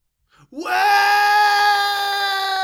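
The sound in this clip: A man imitates a primal scream: his voice jumps sharply upward into a loud, long, steady wail that he holds for about two seconds.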